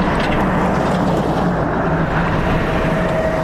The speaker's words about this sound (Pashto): د باغران ولسوالۍ ته پر غځېدلي کنډ او کپر سړک د روان هغه کومک لرونکي بایپور موټر ژغ دی چې اوس مهال مرکز لشکرګاه ښار ته د باغران ولسوالۍ څخه راورسېدلی.